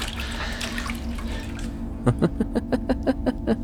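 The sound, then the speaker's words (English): Water splashes as someone washes the skin of their neck: a steady rushing wash comes first, then a quick rhythmic run of many distinct drips and splashes. “Water. I'll wash it away. Wash it away. There. It'll be gone in a few days.”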